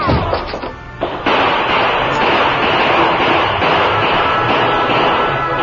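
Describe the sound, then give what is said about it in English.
Gunfire in a shootout between townsmen and outlaws: a few sharp cracks at the start, then a loud, dense, unbroken clatter of shots that holds to the end. “Then other shots were heard from the outside.”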